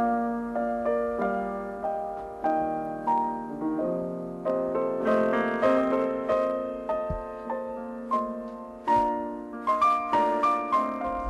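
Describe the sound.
Piano duo playing a classical piece: flowing melodic lines over lower chords, with notes struck and decaying in a steady, moderately loud stream and no voices.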